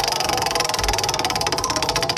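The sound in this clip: A prize wheel spins during a bar trivia game, giving off a rapid, regular train of sharp ratcheting clicks that carries on steadily throughout, with a low hum beneath.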